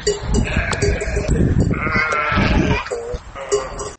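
Sheep bleating from a flock of 200 on a livestock farm in Montenegro; several loud, overlapping bleats rise over a constant bed of flock noise.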